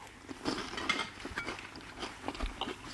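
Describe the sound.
Quiet, wet chewing of a larch bolete mushroom, soft crunches and mouth sounds repeating in an uneven rhythm throughout, faint and unbroken by talk.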